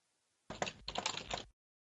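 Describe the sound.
Typing on a computer keyboard: rapid clicking keystrokes in two short bursts separated by a brief pause, heard on their own.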